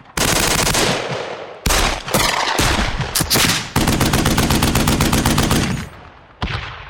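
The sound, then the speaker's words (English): Rapid automatic gunfire from gunshot sound effects of revolvers, rifles, shotguns and automatic weapons of many calibers: several loud bursts of dense, crackling shots fired in quick succession, separated by brief gaps, with no voices. “2,000 sound effects include a broad range of revolvers, rifles, shotguns, and automatic weapons of many different calibers.”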